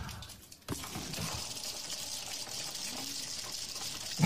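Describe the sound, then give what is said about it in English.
Acorns stashed by squirrels pour out of a house's drywall in a sudden continuous rushing rattle that starts after a short quiet moment and stays faint and steady. “So what you're hearing is acorns pouring out of the drywall.”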